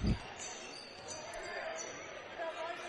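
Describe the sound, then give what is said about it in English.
A basketball bounces once, loud and low, at the start of a high school game's third quarter, followed by steady crowd noise in the gym. “Keeps the dribble.”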